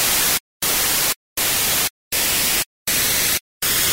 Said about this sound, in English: And it's just a mono track of what's called frozen noise,